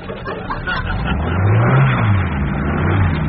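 A Transit van's engine revving while it is worked on in the street outside a tower block. The drone is low and throaty and swells louder through the middle, with no voices.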